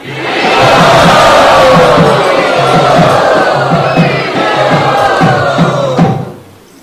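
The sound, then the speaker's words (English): A festival crowd chants "Hari Bol" together in a loud welcome at a bhakti celebration. The sustained roar of many voices holds for about six seconds and then stops abruptly. “All of the people I just named and everyone else, let us welcome very open-heartedly by chanting Hari Bol.”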